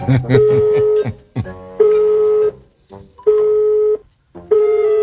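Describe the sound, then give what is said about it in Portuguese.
Telephone tones as a call is placed, four steady mid-pitched beeps of equal length separated by short pauses, with faint other sounds in the gaps. “era só ligar pra ele. Deixa eu ligar aqui.”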